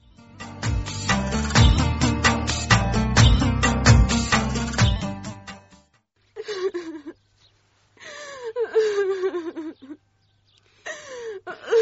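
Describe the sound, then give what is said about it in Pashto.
A girl cries in short wailing sobs that fall in pitch and are broken by pauses. Rhythmic music plays before the crying. “ولالې لورې، بس ته نوره مه ژاړه، له ژړا څه نه جوړېږي.”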